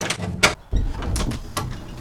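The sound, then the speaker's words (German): A door opens, heard as a few short, loud scraping and rattling bursts separated by brief pauses, with no voices over it. “In diesem Moment öffnet sich die Tür.”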